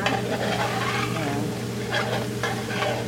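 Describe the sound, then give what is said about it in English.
Vegetables and seasoning sizzle and simmer in a pot of vegetarian chili. A steady, bright bubbling hiss runs throughout at even loudness, with occasional soft stirring scrapes mixed in. “With the vegetables and seasoning simmering”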